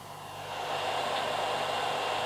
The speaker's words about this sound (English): That sound you can hear is the air conditioner going.